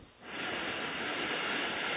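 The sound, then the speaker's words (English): A slow nasal inhale during a breathing exercise, with one hand held below the left nostril: a soft, airy hiss that swells after a brief pause and then stays steady, heard alone. “So then inhale”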